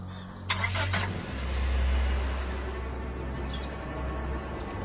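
A car engine cranks briefly with rough pulses, then catches and settles into a steady low rumble that swells slightly before holding level at idle.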